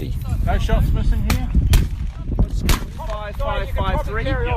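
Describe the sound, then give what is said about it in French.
Gunshots at a weekly sport shooting tournament held by a firearm owners' group in the Rimutaka valley near Wellington, New Zealand. A few sharp, loud cracks stand out over steady background noise, and people talk throughout. “Dans la vallée de Rimutaka, en banlieue de Wellington, les membres du conseil des possesseurs d'armes à feu en Nouvelle-Zélande se retrouvent comme chaque samedi pour leur tournoi hebdomadaire de tir sportif.”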